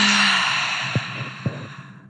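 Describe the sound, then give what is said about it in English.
A deep breath taken during a guided breathwork meditation: one long, steady, airy rush of breath that fades gradually toward the end, with no talking. “So as deeply as you can, in through the nose, open mouth, exhale it out.”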